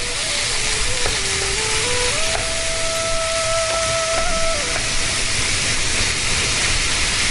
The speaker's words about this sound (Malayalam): ഈ ഒരു വെളിച്ചെണ്ണ നന്നായിട്ട് ചൂടായി വരുമ്പോൾ അതിലേക്ക് ഈ ഒരു പപ്പായ ഇട്ടിട്ട് നന്നായിട്ടൊന്ന് വാട്ടിയെടുക്കുക കേട്ടോ.